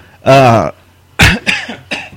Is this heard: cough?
yes